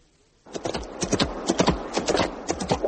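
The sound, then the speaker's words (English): Hooves of a horse ridden bareback clip-clop in a quick, steady rhythm, starting abruptly after a moment of near silence and continuing with many crisp strikes. “Edwin lay low on the rippling shoulders, his fists in the light mane. He had neither saddle nor bridle, but he had ridden this mount bareback more times than he could remember”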